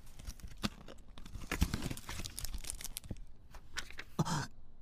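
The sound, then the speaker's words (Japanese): Paper crinkling and tearing as a thick envelope is opened, with several sharp rustles and rips at uneven loudness and no voices. “この封筒は一体、えらく分厚いですな。中を拝見しても？”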